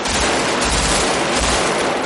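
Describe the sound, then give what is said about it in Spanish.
Gunfire from the police shootout in the 1995 film Heat, a dense, continuous barrage of automatic weapons fire that stays loud and unbroken throughout. “Neil, Chris y Michael disparan el cordón policial.”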